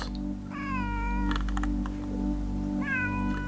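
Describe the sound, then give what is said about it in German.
A frightened, dirty cat shut in a cheap transport carrier outside an apartment building meows twice, each cry drawn out and wavering, over a steady low hum. “Katze. Eingesperrt, verängstigt, verschmutzt.”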